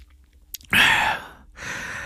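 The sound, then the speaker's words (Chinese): Tea sipped in a mouthful: a breathy slurping burst followed by a softer, airy sound, alone and fairly faint. “潘世恩喝了一口茶，”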